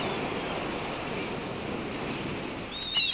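Sea waves wash against a large breakwater wall: a steady, broad rush of surf with no distinct individual breaks, swelling slightly louder just before the end.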